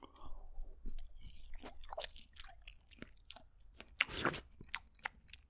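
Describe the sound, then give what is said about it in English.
Crunchy, wet chewing of berries: many irregular bite and crunch clicks with soft mastication between them and one louder crunching burst near the end, with no talk. “That sounded like you were really eating berries. Yeah. I'm eating berries.”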